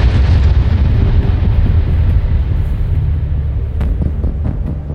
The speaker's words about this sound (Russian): Раскат отдаленного взрыва заставил стоящих на улице военных пригнуться.